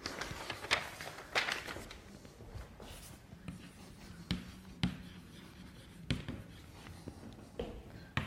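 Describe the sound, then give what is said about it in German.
Handwriting during a math lesson on a counting problem: quiet scratchy pen strokes with a few sharper taps and pauses, no talking. “Ja, jetzt schreibe ich noch hin, was es genau sein soll.”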